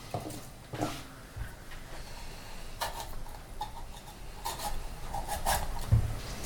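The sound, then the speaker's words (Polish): A knife cutting a large bell pepper into chunks gives a few soft scraping, rasping strokes and light taps at a low level, with no talk. “Papryka się kroi”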